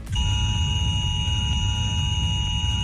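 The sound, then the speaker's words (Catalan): Emergency alert tone sounding from a mobile phone in a civil protection drill, a piercing, unbroken high electronic tone held steadily for nearly three seconds over a low rumble. “entre les 10 i la 1 del migdia el vostre telèfon mòbil emetrà un so com aquest.”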